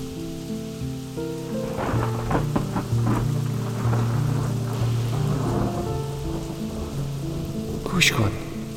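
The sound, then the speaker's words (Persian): Raindrops fall in a steady, soft patter of many small ticks throughout, with a sharper burst near the end. “این صدای قطره های باران را گوش کن”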